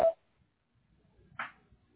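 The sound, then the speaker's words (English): A voicemail recording tone: a single short, mid-pitched beep at the very start, followed by near silence. “At the tone, please record your message. When you have finished recording, you may hang up.”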